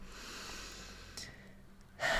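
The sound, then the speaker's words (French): Breathing to relax during an exercise: faint airy breaths under a steady hiss, with a brief puff midway and a louder, sharper intake at the end. “Tu veux bien un petit peu respirer”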